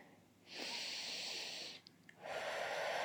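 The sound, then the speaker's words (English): A deep breath taken slowly during a guided breathing exercise: a long, airy, hissing stream of breath, then a brief pause and a second long breathy stretch. Steady and moderately loud, with no talking. “Just take another deep breath. Deep, deep breath. And one more breath.”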